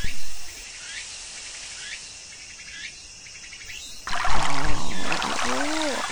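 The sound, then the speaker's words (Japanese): Water pouring for washing: a broad rushing splash begins partway through and stays loud after a quieter stretch filled with regular high chirps like insects or birds. “さて、気合を入れて洗うことにしようかの。”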